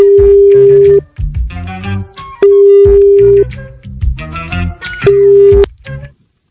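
Telephone line tones while calling someone back on a double call: three flat, mid-pitched beeps, each about a second or shorter, with bursts of loud, busy harmonic sound between them.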